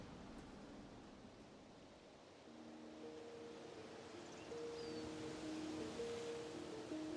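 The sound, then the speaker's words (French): Wind blows softly through umbrella pines on a seaside clifftop on a summer afternoon, a gentle, steady rushing hiss that swells slightly toward the end, with no voices. “On n'entend pas la mer, retirée loin de la falaise par le jeu des marées, mais le doux bruit du vent dans les pins parasols.”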